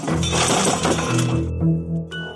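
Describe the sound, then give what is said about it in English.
A sliding glass door shatters as thrown firewood smashes through it: a loud, dense crash of breaking glass that settles into fainter tinkling ring-outs. “To make it look like a robbery, she threw a piece of firewood through the sliding glass door.”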